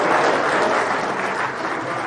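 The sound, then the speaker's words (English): Audience applause closing a panel program on agricultural markets: dense, steady clapping that stays loud and even throughout, with no voices standing out. “Give these folks a nice round of applause.”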